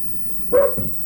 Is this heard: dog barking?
yes